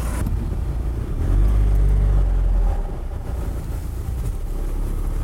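Steady, deep engine and road rumble of a car driving to a station on a Bundeswehr medical service site, swelling louder for a stretch midway before settling back to an even drone, with no voices.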